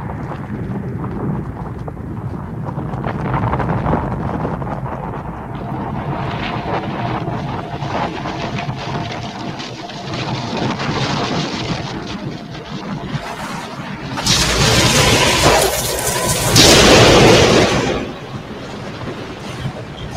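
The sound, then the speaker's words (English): Ground shaking as great rock columns burst up to form a temple: a sustained rumbling, grinding roar that surges into a louder, harsher burst near the end. “The ground begins to shake. The skies darken and great rock columns shoot from the ground, forming a temple.”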